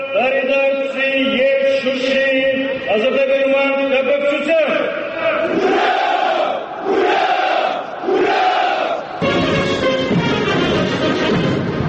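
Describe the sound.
Armenian army soldiers shouting a greeting in unison, several loud chanted phrases from many voices with brief gaps between them.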